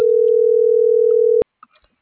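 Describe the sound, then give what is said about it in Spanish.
A telephone dial tone sounds as a call is dialed: a loud, steady single-pitch tone that cuts off after about a second and a half, followed by a few faint clicks. “Ya estoy marcando.”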